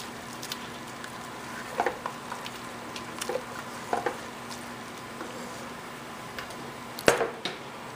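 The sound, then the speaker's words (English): Tomato paste sizzling as it cooks in a pan: a steady, faint frying crackle with a few sharper pops scattered through it. “Alright, so it looks like I'm going to add some tomato paste in there.”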